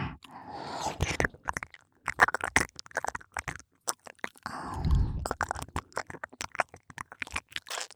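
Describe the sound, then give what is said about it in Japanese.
Ear licking in an ASMR roleplay: close, wet mouth sounds with irregular smacks, clicks and slurps, interrupted by soft breathy stretches, moderately loud and without talk. “耳舐めをしてあげる。それじゃあいただきまーす。”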